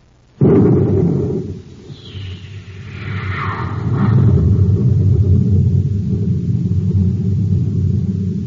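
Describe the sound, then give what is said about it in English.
Spaceship engines blast off with a sudden loud burst, then a deep roaring rumble that dips briefly before building again and holding steady to the end. “Now, if we can get the ship airborne... The hatch is secured, sir. That guard out there has a blast gun. We may be in for a rough time. Stand by to blast off.”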